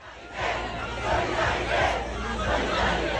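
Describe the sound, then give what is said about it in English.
A crowd protesting against dilapidated, understaffed schools in France shouts and chants together, with loud rhythmic surges of many voices that build after a quieter start and hold steady. “That's the sound of more demonstrations against dilapidated and understaffed schools.”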